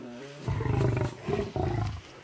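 A lion roars at feeding time while donkey or horse meat is handed out: two loud, deep, grunting roar phrases separated by a short break, with no voices.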